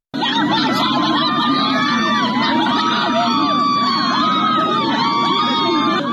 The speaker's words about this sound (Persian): این صدای معترضانی است که در روستای چنار محمودی، یکی از روستاهای شهرستان لردگان در استان چهارمحال و بختیاری، در مقابل فرمانداری لردگان تجمع کردند.